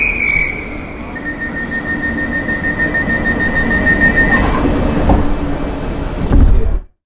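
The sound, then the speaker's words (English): Trains at busy Victoria Station give a steady rolling roar, with a thin, high wheel squeal running through the middle. A louder low thump comes near the end before the sound cuts off. “This is Victoria Station, as it sounds today.”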